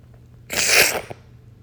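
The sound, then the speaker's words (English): A single sneeze from a person with a cold and a stuffed nose: a sharp, breathy burst of about half a second, loud against a faint, quiet background. “I have a fucking cold, I have a fucking stuffed nose, I don't fucking know, just been sneezing.”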